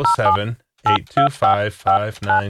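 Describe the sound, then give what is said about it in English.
Telephone keypad beeps as a phone number is dialed, a quick series of short two-note electronic tones mixed with a person talking. “We called my childhood phone number and it was like disconnected. Let's see if anyone has a number now.”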